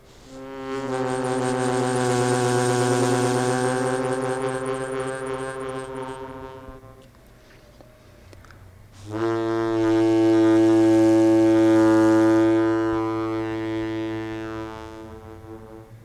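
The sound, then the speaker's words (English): An old, large mouth harmonica that has lost its cover shells plays two long, reedy sustained chords. Both are loud and rich, with a brief, quieter dip between them and no other sounds. “So it's an old, like quite a kind of big mouth harmonica that has lost its shells. So it looks quite rough, but it has great sounds.”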